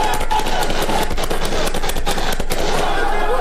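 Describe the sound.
Automatic rifle bursts are fired into the air by security forces stopping a crowd heading for a state border. The shots come as a dense, loud, continuous crackle of rapid cracks with no pause across the whole stretch.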